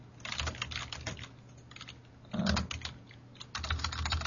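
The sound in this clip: Rapid tapping on a computer keyboard, dense bursts of keystrokes broken by a couple of short pauses, steady and fairly loud throughout.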